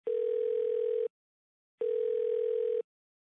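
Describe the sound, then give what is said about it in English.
Telephone line tone after a number is dialed for a call: two steady, buzzy bursts of about one second each, separated by a short silent pause, with no talk. “He paused for a moment and then dialed Harry.”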